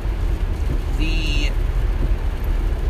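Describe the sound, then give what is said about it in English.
A dump truck passing by makes a steady, loud, low engine rumble that fills the whole stretch, with a brief high squeal in the middle. “okay, we're just going to let this dump truck pass.”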